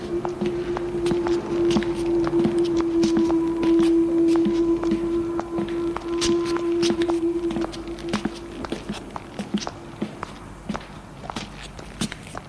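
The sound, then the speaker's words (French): Footsteps walk behind someone: many regular, fairly loud steps in a steady rhythm. A sustained tone holds through the first half and then fades, leaving the footfalls slightly softer and more uneven toward the end. “Elle entend des pas derrière elle. Elle continue à marcher. On continue à marcher derrière elle. Ça la gêne d'entendre des pas derrière elle.”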